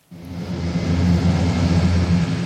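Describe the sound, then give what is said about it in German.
A large grey military transport aircraft with loud propellers takes off from a military airfield: a loud, low, droning rumble with steady humming tones that starts abruptly and holds level throughout. “Ein großes, graues Transportflugzeug mit lauten Propellern hebt ab.”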